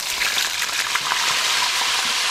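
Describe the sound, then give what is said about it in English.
Fish frying in about a cup of hot oil in a frying pan, a loud, steady sizzling hiss with dense crackles and spatters throughout, with no voices. “You're swirling the oil in the frying pan now. Are you going to drop some water in it? Yikes. Man, that oil is flying about half foot up in the air. Okay, here's the fish.”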